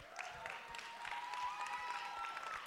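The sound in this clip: An audience applauds as a woman's husband is welcomed onto the stage, a faint, steady patter of clapping throughout.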